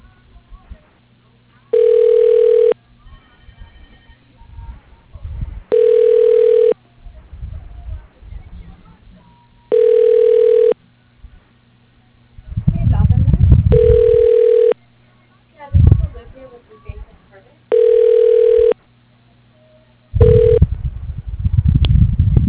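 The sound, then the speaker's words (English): A ringback tone sounds on a telephone line while a call is transferred to an operator. A steady mid-pitched buzz repeats in roughly one-second bursts about every four seconds, with speech in the gaps between the tones. “Your call is being transferred to the operator.”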